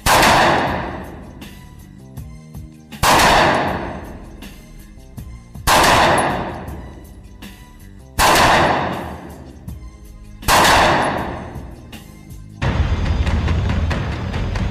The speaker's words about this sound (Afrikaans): Daar is teiken mannetjies hier, so ons gaan punte skiet